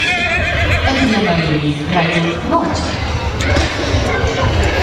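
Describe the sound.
A horse whinnies at an equestrian competition beside a riding ring, its long, wavering call rising over a steady bed of outdoor background noise.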